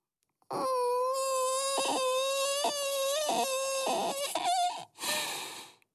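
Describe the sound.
A voice imitating a frightened little soul whimpering and beginning to cry: a sustained, high, quavering whine broken by several sobbing catches, rising into a strained wail before a final breathy sob.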